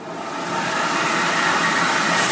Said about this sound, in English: First thing I do, I don't allow any dirty kids in the museum, so it's a full-body child vacuum.